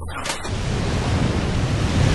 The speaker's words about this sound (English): Waves crash around a tiny island of jagged rock.